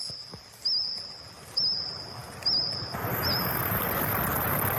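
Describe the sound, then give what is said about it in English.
Jurassic insect calls from 165 million years ago: a thin, steady, high-pitched tone broken by four warbling chirps at even intervals, then a brighter hissing buzz with a second piercing tone takes over toward the end. “These are insects from 165 million years ago. The sound of Jurassic insects.”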